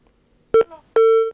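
Telephone call tones come in during a live Eritrean satellite TV call-in: a short, clipped beep, then a longer sustained electronic tone, both clear and bright, with no talk over them.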